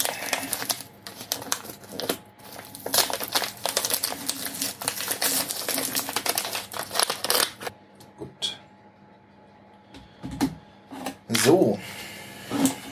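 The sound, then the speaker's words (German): A new 150-gram package of sugar being opened: a long stretch of crinkly rustling and tearing with sharp crackles, then quieter scattered rustles, with a person speaking nearby. “150 Gramm Zucker. Aufmachen, der ist nämlich neu.”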